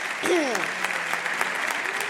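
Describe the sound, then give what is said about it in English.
Congregation applause during a church service: a steady burst of clapping lasting about two seconds, with a brief voice sliding down in pitch near the start. “Whoa, can we have a round of applause? Thank you for coming.”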